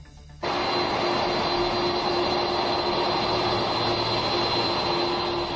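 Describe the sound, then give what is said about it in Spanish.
A presidential jet taxiing along the runway at Torrejón de Ardoz air base at night, its engines a loud, steady, unbroken roar with a whining tone, rising suddenly from a quieter hum and holding constant throughout. “Este es el sonido del avión de Obama, el avión del presidente de Estados Unidos, deslizándose por la pista de Torrejón de Ardoz.”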